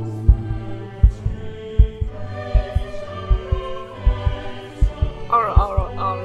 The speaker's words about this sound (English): as the like clockwork sound and the sound of heartbeats and this moan kind of